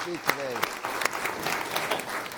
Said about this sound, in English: So big round of applause for Emily